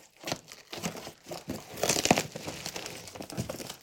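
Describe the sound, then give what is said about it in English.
A cardboard box is being opened, with a series of crinkling, scraping and tearing bursts, loudest around the middle and tapering off toward the end. “How many idiots does it take to open up a box?”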